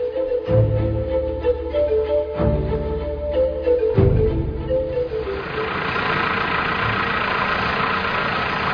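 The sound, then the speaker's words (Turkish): Tractor engine running, a low chugging idle with regular deep pulses and a humming tone, then turning into a broader, rougher, steady roar. “traktörün sesi dostlarımızın pek hoşuna gitmeyecek”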